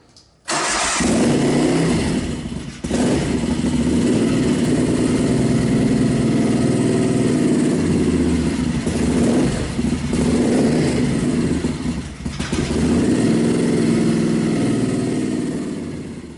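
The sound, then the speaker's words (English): A V-twin Aero 750 motorcycle with a hot-rod sound fires up in a garage. It breaks into a loud, steady, rumbling idle, with a few brief dips and surges in the note as it runs. “But no, this sounds like a crazy hot rod. And again, it's in a garage, so bear with that.”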